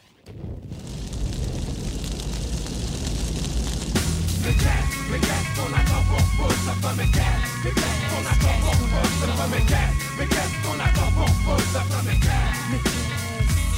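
A French rap track opens with dense, roaring noise, and a steady beat of regular pulses enters at about four seconds and continues to the end.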